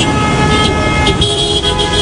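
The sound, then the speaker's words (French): Congested city traffic on a main boulevard in Kinshasa: blaring car horns hold steady tones over a dense, continuous engine rumble, loud throughout with no talk. “Le trafic automobile ressemble bien souvent à une congestion géante”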